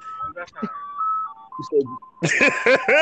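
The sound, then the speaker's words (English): An ice cream truck drives by playing its jingle, a bright, chiming melody of held electronic notes, before loud voices of people talking outside break in over it. “Like the ice cream. Ice cream truck. Driving, but I'm outside.”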